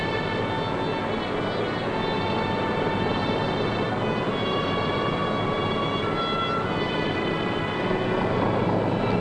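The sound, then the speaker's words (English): A locomotive turning on a powered turntable gives a continuous mechanical hum and whine with faint sustained tones, holding steady and growing slightly louder near the end. “The locomotive is run onto the turntable. On goes the power, and around goes the locomotive as easy as you please.”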